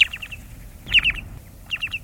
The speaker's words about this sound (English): And now, the low, mellow call of the short-billed.